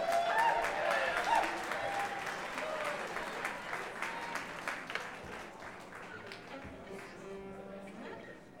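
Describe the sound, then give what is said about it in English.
Audience applause for a musician at a live show: full, steady clapping that tapers off gradually into scattered claps, with a voice briefly heard near the start. “A big round of applause for Freddie. Please.”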